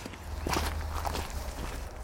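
Footsteps walk along an outdoor path toward a row of newly planted oak trees by a bat bridge, a few soft, irregular steps over a steady low hum.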